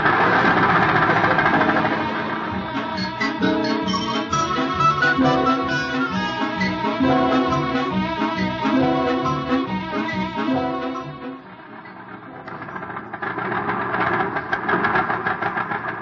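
A small car's engine runs continuously while the car drives in circles low on gas: a steady, mid-pitched rumble with a rough, knocking pulse that dips briefly near the end, with no talking.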